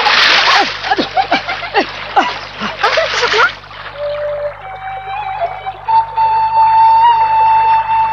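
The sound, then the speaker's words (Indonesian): Water splashed at someone in a run of many rapid, loud splashes and splatters, followed by a quieter stretch of sustained tones. “Ayo kita goda dia. Ayo kita ciprati dengan air.”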